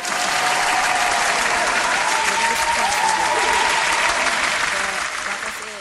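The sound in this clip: An audience claps for the president of the nonprofit W3EW: dense, steady applause holding an even loudness for several seconds, with voices calling out over it, before easing off at the end.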